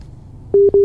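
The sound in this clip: A telephone busy signal sounds while a call to a caller in Bangka Tengah is being connected: after a faint low hum, two loud steady mid-pitched beeps follow with a short gap between them, the second running to the end.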